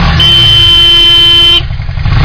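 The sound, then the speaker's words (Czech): A chopper motorcycle's horn blares in one loud, steady, high tone for over a second, then cuts to a rough, lower rumble of the running engine. “Okamžitě ještě se zalepenýma očima nastartuje svého čopra a do toho si troubí. A troubí.”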